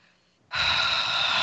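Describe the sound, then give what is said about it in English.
Heavy breathing into a microphone: a loud, breathy rush of air starts abruptly after a short quiet stretch and holds steady to the end. “He's going to be like, stop breathing heavy into the microphone.”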